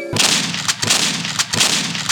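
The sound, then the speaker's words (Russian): Gunshots: three sharp, loud reports at roughly even intervals, each followed by a broad, noisy wash of sound. “Стреляй!”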